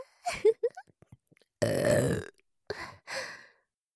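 A woman lets out one long, rough burp, loud and drawn out for nearly a second, with a few short vocal sounds just before and after it.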